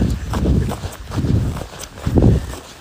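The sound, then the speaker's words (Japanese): Footsteps squeaking on snow in minus six degree cold as something runs across it, a few rhythmic crunching bursts that rise and fall in loudness, with no talk over them. “キュッキュッキュになりますね。零下6度の時の音ですね。”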